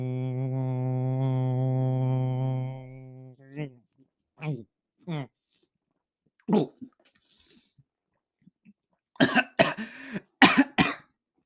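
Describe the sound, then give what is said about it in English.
A person coughs after choking on a mouthful of Propel drink while holding their breath. A long, steady voiced hum comes first, then a few scattered breaths, and finally a burst of several harsh, loud coughs at the end. “I decided to put Propel in my mouth and hold my breath and see what happened. And I choked.”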